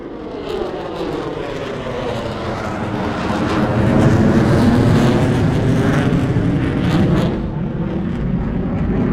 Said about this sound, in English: That's the sound of an F-35 taking off.